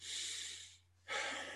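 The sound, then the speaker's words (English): Slow, deliberate breathing in through the nose and out again, shown as two long, airy breaths with a short quiet pause between them. The breaths are faint, with a low steady hum beneath. “So inhale through your nose,”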